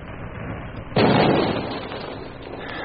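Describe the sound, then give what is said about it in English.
A depth charge explodes underwater near a submarine: a single heavy, muffled boom bursts out of a steady low background hiss, then decays into a fading rumble over about half a second. “Hold on. Depth charges next. First one.”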